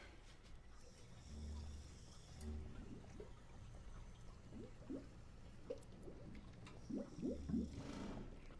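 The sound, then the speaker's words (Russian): Dirty slurry bubbles and gurgles in a pit beneath rusty pipes: faint, scattered wet pops and small liquid bursts, growing more frequent toward the end, over a low, quiet background. “Она медленно переводит взгляд на яму, в которой под ржавыми трубами пузырится грязная жижа. По поверхности жижи проходит мелкая рябь.”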